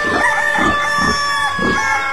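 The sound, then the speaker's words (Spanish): A rooster crows at dawn, four repeated crowing calls in steady rhythm over a bright, harmonic background, loud and clear with no talk. “Un gallo madrugador al sol viene despertando”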